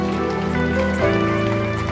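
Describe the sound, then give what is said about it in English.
Applause from a church audience closing a sermon: dense, steady clapping that holds at even loudness throughout, with sustained musical tones running underneath. “If you receive that word, put your hands together.”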